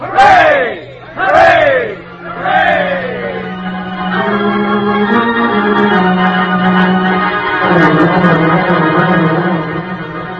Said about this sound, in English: All right, fellas, let's give the old cheer for old Sink.